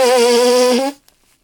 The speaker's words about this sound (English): Hold on, my nose itches so goddamn much. Go ahead and blow that schnoz. That's some great audio we're getting today.